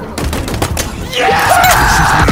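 Gunfire in Halo Infinite gameplay: dense, rapid bursts of shots that run continuously and grow louder and fuller partway through, with a brief rising and falling whine.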